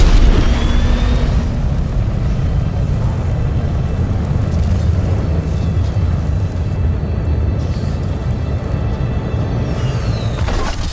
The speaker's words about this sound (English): Just going to start off with 1% thrust capacity. In 3, 2, 1.